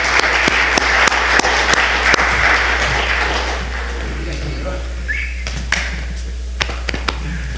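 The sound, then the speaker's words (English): Audience applause welcoming a guest preacher at a church service, dense clapping that thins out after about four seconds over a steady low hum, with voices speaking afterward. “Friends, let's welcome our brother by putting our hands together and saying thank you.”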